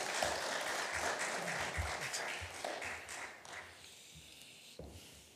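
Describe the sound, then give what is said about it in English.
A church audience applauds to welcome a guest speaker. Soft, steady clapping lasts about four seconds and then thins out into a few scattered claps. “let's give him a warm, hand, Welcome him to Calvary Chapel Mountain View.”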